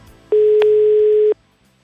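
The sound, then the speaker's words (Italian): A telephone ringing tone sounds during a prank call to a political office in Italy: one steady, pure beep lasting about a second, loud and alone, with faint line noise before and after. “ma non sfugge allo scherzo ordito dalla zanzara, una telefonata da un falso Bossi.”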